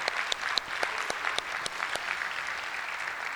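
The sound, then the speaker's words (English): Audience applause rises from a crowd, many rapid claps merging into steady, fairly faint clapping that holds throughout. “Let's have a round of applause, a round of hands, for our sound man, Bob Smakula.”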